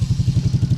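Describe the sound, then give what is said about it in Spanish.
A Suzuki DR150 ABS motorcycle engine running, a steady low throbbing made of quick, evenly spaced pulses, heard alone for a brief moment. “Así suena la moto que vamos a entregar, la DR150 ABS.”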